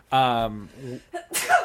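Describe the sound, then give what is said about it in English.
A person sneezes once: a loud, drawn-out voiced build-up and a few short vocal sounds lead into a sharp, noisy burst near the end. “Bless you”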